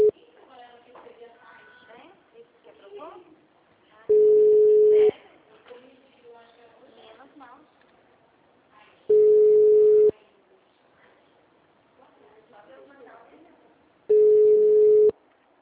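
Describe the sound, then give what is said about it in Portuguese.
Telephone ringing tone while placing a call: three steady, mid-pitched one-second tones, spaced about five seconds apart, with people talking in the gaps between them. “Ela tá ligando pro Emerson. Vai entrar, vai entrar, vai entrar”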